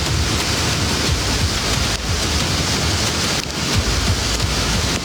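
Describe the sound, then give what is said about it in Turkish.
Heavy rain pours down during flash flooding in a large city where cars are swept away, a dense, steady roar of water that stays loud and unbroken throughout, with no voices. “Mega kenti yağmur vurdu, sağanak sel getirdi, araçlar suya kapıldı”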